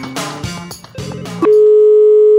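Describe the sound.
A telephone tone heard after redialing a call: a stretch of varied tonal sounds gives way to a loud, steady single-pitched tone that holds unbroken to the end.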